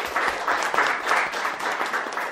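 Applause from an audience at a cultural presentation, a steady patter of many hands clapping at moderate loudness from start to finish.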